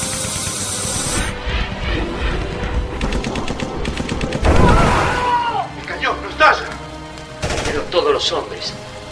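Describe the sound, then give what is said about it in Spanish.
An anti-aircraft machine gun fires in rapid, loud bursts as a radio drama sound effect, mixed with other battle noise and voices speaking. “Pero la ametralladora todavía funciona.”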